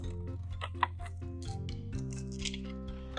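Scissors snip open a card envelope with a few faint, crisp cuts over a steady low hum.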